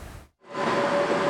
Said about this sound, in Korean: 승객을 태운 열차가 서소문 건널목을 통과합니다.